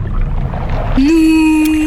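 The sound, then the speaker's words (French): A voice imitates a whale call with a long, steady, low hum held for about a second, after a stretch of murky, rumbling noise. “Est-ce que tu es bien sûr que tu parles baleine?”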